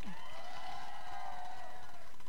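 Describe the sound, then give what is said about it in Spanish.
An audience welcomes a musician with applause and cheering, a steady, even wash of clapping blended with sustained crowd voices throughout. “Quiero que me ayuden a recibir con un gran aplauso a un gran amigo y un gran maestro de la música.”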